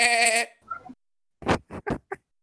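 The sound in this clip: A voice imitates a sheep bleating for a goblin's sheep mount in a fantasy role-playing game: one wavering, quavering bleat, then a few short, clipped voiced bursts.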